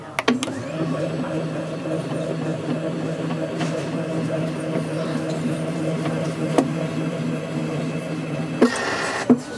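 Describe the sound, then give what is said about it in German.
A record-cutting lathe's stylus cuts the lead-in groove into a disc, giving a steady mechanical whir with a layered humming drone that holds level throughout, marked by a few sharp clicks that cluster near the end. “senkt sich der Stichel nach unten und es geht direkt los mit Schneiden. Dann wird, wie gesagt, zuerst die Einlaufbrille geschnitten.”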